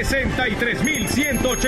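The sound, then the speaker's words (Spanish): Jackpot bell of a casino slot machine ringing as an electronic alarm, a warbling tone that pulses rapidly and steadily without pause. “Esto no para porque sigue sonando la campana del billete.”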